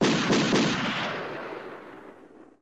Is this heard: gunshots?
yes

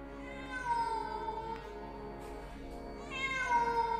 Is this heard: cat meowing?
yes

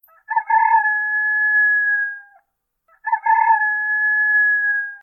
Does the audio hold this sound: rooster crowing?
yes

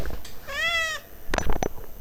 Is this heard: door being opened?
no

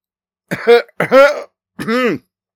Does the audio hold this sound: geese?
no

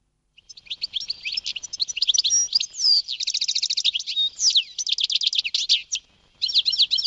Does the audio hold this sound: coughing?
no

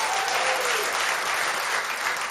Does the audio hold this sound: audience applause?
yes

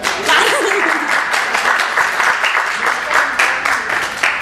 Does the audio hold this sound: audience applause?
yes

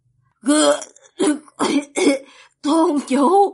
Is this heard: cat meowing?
no

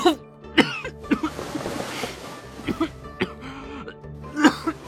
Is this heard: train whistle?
no

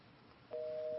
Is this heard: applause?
no

